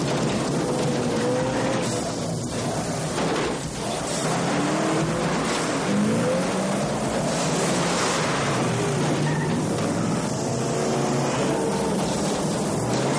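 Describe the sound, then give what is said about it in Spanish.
Cars accelerate side by side in a street chase along an avenue crossed by old rail tracks, a loud, continuous, dense roar with wavering engine tones rising and falling throughout, and no voices. “Ahora, los coches aceleran de modo paralelo.”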